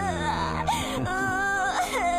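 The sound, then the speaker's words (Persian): A little boy crying: a continuous, fairly loud whimpering wail whose pitch wavers and slides up and down as he sobs. “گریه نکن عزیزم، گریه نکن، پدر بزرگ حالش خوبه.”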